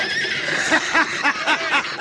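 Horses being pelted with rocks neigh loudly, a whinny that quavers in rapid, regular pulses, heard over a steady noisy background.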